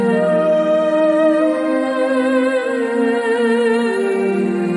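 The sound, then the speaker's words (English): Frequencies from an aloe vera plant turned into audible sound: sustained layered electronic tones with many stacked harmonics that waver slowly, loud and steady throughout with no talk. “Here we go. This is the sound of the frequencies coming off a plant.”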